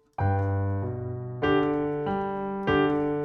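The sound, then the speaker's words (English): A piano phrase with the right hand playing short, detached staccato notes over a smoothly connected legato left hand. About five clear note attacks fall in a moderate, even pulse. “Now you can hear the right hand is playing staccato, left hand is playing legato.”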